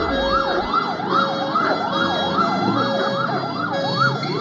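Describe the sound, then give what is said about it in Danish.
A police car siren wails as the car leaves a bank on Nørrebro. It cycles quickly up and down in pitch, loud and continuous, over a low engine rumble, with no voices. “Det, du hører her, det er lyden af Pia Kjærsgaard, der bliver kørt væk i en politibil fra en Unibank”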